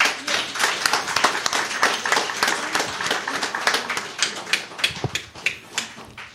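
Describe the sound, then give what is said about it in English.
Church audience clapping to welcome a preacher, a dense, steady patter of many hands that runs the whole way through, with a few sharper, louder claps standing out near the end. “Here he is, church. Give him a hand for it.”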